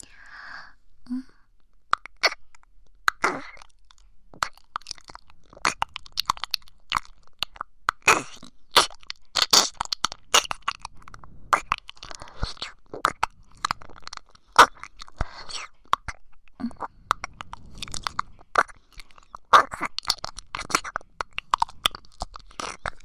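Wet mouth clicks and soft nibbling sounds as an ear is nibbled and tasted, with many irregular, close-spaced smacks and crunchy clicks running steadily throughout at low to moderate loudness.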